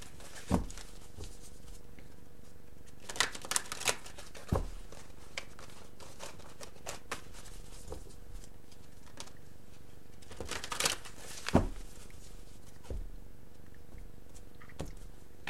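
Tarot cards being shuffled and drawn from the deck: quiet, scattered rustles and soft snapping clicks in a few short bursts, separated by long near-silent gaps, with no talking.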